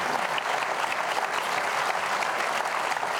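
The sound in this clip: A studio audience at a television talk show applauds to welcome a guest pastor, with sustained, dense clapping at an even loudness from start to finish.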